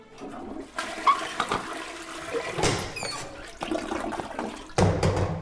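Toilet flushing in a bathroom: a loud rush and gurgle of water that swells, keeps running and surges again near the end.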